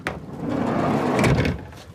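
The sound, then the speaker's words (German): Drawers in a waste investigator's work vehicle, filled with gloves, are pulled open. A short knock leads into a sliding, rumbling scrape that lasts about a second and a half before fading out. “zeigt die Schubladen in seinem Arbeitsauto, gefüllt mit Handschuhen”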